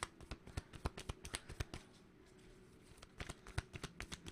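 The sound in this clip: A deck of reading cards is shuffled in two bursts of rapid, crisp snapping clicks with a brief lull between them, quiet and with no talk.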